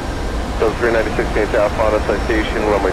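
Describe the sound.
Continuous airplane engine drone in a flight simulator video game, a steady hum running under someone talking throughout.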